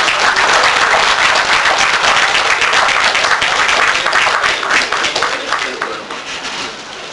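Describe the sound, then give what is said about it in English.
Audience applause welcoming a speaker onto the stage: a dense, loud wash of clapping that holds steady for several seconds, then thins and fades toward the end. “Please put your hands together and help us welcome Philip Emeagwali.”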